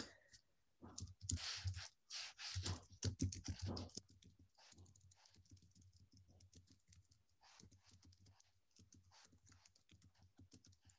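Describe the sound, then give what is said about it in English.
Typing a message on a computer keyboard: bursts of rapid, clacking keystrokes in the first few seconds, then lighter, sparser clicks continuing to the end, with no talking. “Let me just type a message here.”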